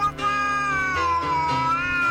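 A cat meows in one long, loud, drawn-out cry whose pitch dips and then rises again.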